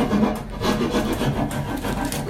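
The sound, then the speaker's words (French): Hand saw cutting through wooden planks to make a firewood box for a mountain refuge cabin: a continuous dry rasp of repeated strokes that blend into an even scraping texture, loud and steady with no voices. “Scie à la main et je suis en train de scier des planches pour faire la boîte à petits bois pour que les gens se chauffent.”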